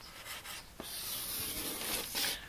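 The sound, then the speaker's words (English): Writing on a board makes faint, scratchy rubbing strokes that come in short bursts and longer drawn-out scrapes, soft and continuous. “So let's take, so we write here team performance versus individual performance.”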